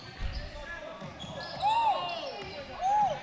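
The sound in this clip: A basketball bouncing on the court during a game, with a few low thumps followed by two short, high squeaks over steady crowd murmur.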